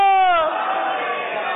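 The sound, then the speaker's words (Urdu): A crowd chanting a slogan at a points-based competition event: one voice's drawn-out call, falling in pitch, gives way to a loud, sustained mass shout. “نعرہ لگائے فیضان اعلی”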